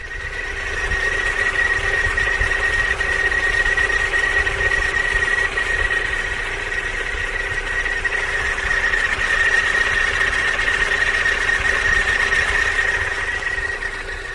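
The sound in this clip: Turbocharger noise from a car engine: a steady, thin, high-pitched whine over a low mechanical drone, continuous and fairly even for the whole stretch, with no voices.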